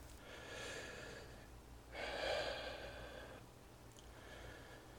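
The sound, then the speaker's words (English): Deep, slow breaths drawn in and let out during a relaxation exercise: three soft, airy stretches of breath sound, the middle one fuller and louder, with no talking. “Now let your eyes close, and we're going to take three deep cleansing breaths.”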